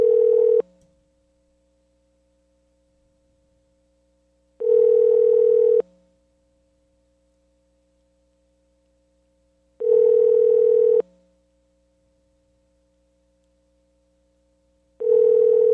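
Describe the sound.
Ringback tone of an outgoing telephone call before it goes to voicemail: four steady electronic tone bursts of about a second each, separated by long silences, the last one cut short.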